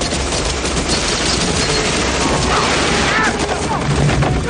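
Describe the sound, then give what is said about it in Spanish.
Gunfire from several guards shooting from an elevator in a 1996 action thriller film: a loud, dense barrage of overlapping shots with no gaps, forming a continuous harsh roar throughout. “Al momento, la puerta del ascensor se abre y varios guardias disparan contra él.”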